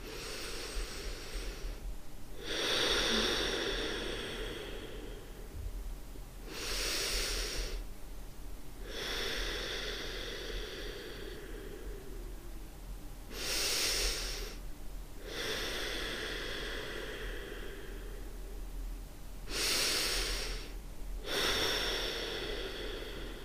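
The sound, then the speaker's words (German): Slow, deep breaths drawn in and pushed out through the nose, a relaxation exercise; several long, airy, hissing rushes of air separated by quiet pauses. “Zweitens, ich atme viermal tief durch die Nase ein und aus.”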